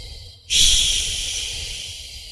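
A forceful breath pushed out hard during a breathing exercise: one long, hissing exhale starts abruptly after a brief quiet moment, then slowly fades while still rushing.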